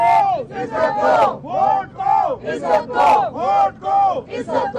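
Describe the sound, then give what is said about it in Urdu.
Party workers chant slogans outside Adiala jail, where they have gathered to meet Nawaz Sharif. Many voices shout together in a loud, rhythmic series of repeated phrases with short gaps between them. “Nawaz Sharif سے ملاقات کے لیے کارکنان کی بڑی تعداد Adiala jail پہنچی تھی جہاں انہوں نے نعرے بازی بھی کی۔”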